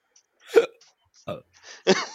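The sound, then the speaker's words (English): Hiccups come from a person in three short, abrupt vocal gulps at uneven intervals, each brief and fairly sharp, with no other talk around them. “got the hiccups from it”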